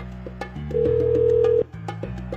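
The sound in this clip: Telephone line tones while a prank call to a florist is being placed: low steady tones with a brighter, higher tone held for about a second, scattered short clicks, and then the lower tones return.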